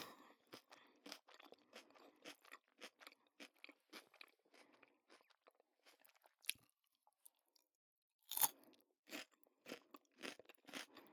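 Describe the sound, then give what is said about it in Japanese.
Crunchy chewing of crisp food with a crunchy texture: many rapid crisp bites in steady bursts, a short pause, then one sharp loud crunch before the chewing resumes. “この歯ごたえ、シャリシャリ感。 気持ちよくないですか？”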